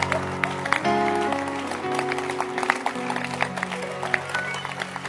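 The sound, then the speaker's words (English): A church audience claps, with scattered, uneven hand claps rising out of sustained tonal sound, the claps sharp and intermittent rather than a steady roar. “Can you clap? Or you are too big to clap?”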